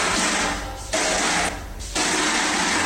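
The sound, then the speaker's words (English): The 20th Century Fox fanfare played on a garden hose: buzzy, hissing, airy blasts in three long phrases split by two short breaks, harsh and loud with little clear tone. “Then we have the 20th Century Fox music being played on a garden hose.”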